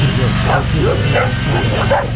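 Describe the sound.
A dog barking in a rapid series of short, yapping barks at a fairly steady rhythm, loud throughout.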